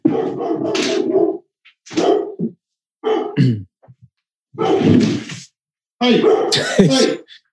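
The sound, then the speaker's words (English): A dog vocalizes in about five loud bursts of barking and whining, separated by short silent gaps. “oh, that's my dog. One second.”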